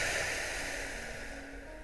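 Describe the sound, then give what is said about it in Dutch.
A long breath blown out through the mouth during a guided relaxation breathing exercise, heard as a steady airy hiss that slowly softens over about two seconds. “En neem dan eerst eens even en adem eh, blaas hem door je mond.”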